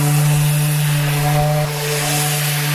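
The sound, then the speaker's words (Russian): A worker sands long, solid wooden boards on a private building site, the power tool giving a loud, steady motor drone with a strong low hum and layered harmonic tones that holds without a break throughout. “И пока я жду хозяина, подхожу к рабочему, шлифующему длинные добротные доски.”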